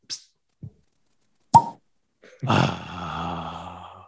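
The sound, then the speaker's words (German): A cork pops from a bottle whose cork is dry. A couple of faint small clicks come first, then one sharp pop, followed by a louder rough, sustained noise. “darf ich mal ganz kurz um Ruhe bitten, dass ich mal diese Flasche öffne? Mal gucken.”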